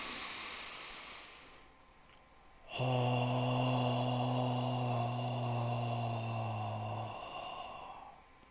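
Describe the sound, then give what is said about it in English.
A person takes a long, deep breathing-in during a breathing exercise, a soft airy rush lasting a couple of seconds, then gives way to a loud, sustained, steady voiced exhale held for about four seconds before fading. “we're going to take a deep breath. Inhale again.”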